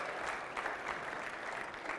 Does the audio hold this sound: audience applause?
yes